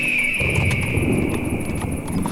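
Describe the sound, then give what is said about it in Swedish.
Horses clip-clop as they are ridden, a steady run of hoofbeats over broad noise with a sustained high whistling tone on top. No talking. “Orvar red på Fjolar och jag satt bakom Jonathan på Grim.”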